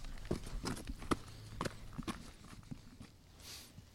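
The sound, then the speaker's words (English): Faint footsteps along a trail arriving at Top Cottage, a few soft, uneven steps. “Yeah, maybe we're walking past some of them right now as we arrive yes. at the end of this trail here with Top Cottage in front of us.”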